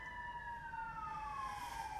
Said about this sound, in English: oh man, 8:14 a.m. sirens already. Hope those people are okay wherever they're going.